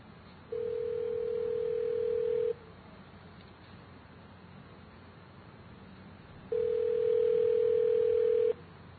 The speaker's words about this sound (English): I'm dialing the number, and please don't decode the number because it's a secret.